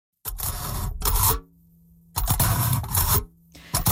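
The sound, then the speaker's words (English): A fork pokes through aluminum foil in two long bursts of bright, crackling, crinkly rustle separated by a short quiet gap, with no voices. “So that's the sound of a fork poking through aluminum foil.”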